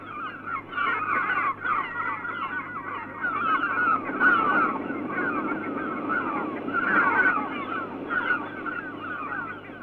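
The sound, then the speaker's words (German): Seagulls cry in loud, raucous, honking calls that overlap continuously, many voices rising and falling in bursts, with no talking. “Viertens, Möwengeschrei.”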